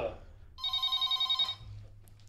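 A telephone rings in one trilling burst of rapid pulses lasting about a second, from a newly connected line with a SIM chip, plugged into the wall during a live test; quiet background noise before and after.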